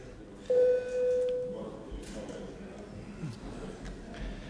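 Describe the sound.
A parliament voting signal sounds as one brief, faint electronic tone lasting about a second over a low murmur of room noise in the chamber.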